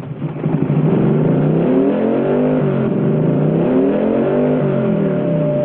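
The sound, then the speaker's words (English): Motorcycle engine revving as the rider twists the throttle, with the bike facing a ramp: a continuous loud, throaty roar whose pitch wavers up and down, with no voices. “Evil turns the throttle on the hand grips”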